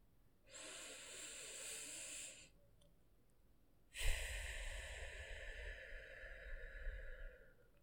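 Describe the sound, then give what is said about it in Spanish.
A breathing exercise: one breath drawn in through the nose as a soft, airy hiss lasting about two seconds, then after a short pause a longer, louder breath pushed out through the mouth with a low, gusty rumble. “Vamos a inhalar por la nariz y luego vamos a sacar el aire por la boca. Entonces ahí va la primera.”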